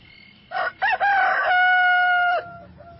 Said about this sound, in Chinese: 等到鸡叫的时候